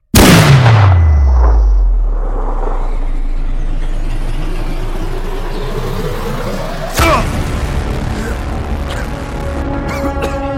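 A loud gunshot from a shot fired at a target cracks at the start, its deep boom dropping away into a long, steady rumble. Another sharp bang follows later, over a continuing low background.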